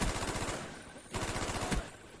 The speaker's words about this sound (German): Ah, hier, AK-74, beste Waffe. Das war so nice, die Waffe in dem Game.